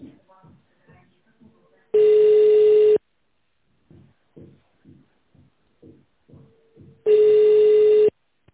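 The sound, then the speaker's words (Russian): Telephone ringback tone while a call to a technical support line is transferred to a manager: two long, steady buzzing tones of about a second each, with faint, short blips between them. “Либо оставайтесь на линии, и ваш звонок будет переведен на менеджера.”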